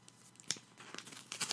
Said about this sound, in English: There's the sound of the envelope opening.